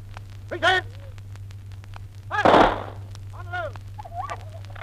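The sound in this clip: A rifle volley fired by a firing party at a military ceremony: a single sharp, broad crack bursts out amid loud shouted drill commands, with more commands before and after.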